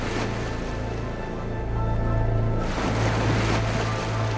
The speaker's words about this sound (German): Wellen brechen sich an einem der massiven Stützpfeiler unterhalb von ihr.